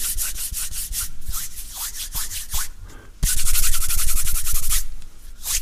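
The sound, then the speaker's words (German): Hands rubbing together produce rhythmic swishing strokes, many in quick succession. After a brief pause the rubbing turns louder and denser, then fades near the end. “Und hör ich meine Hände an, merk ich, dass das auch klingen kann.”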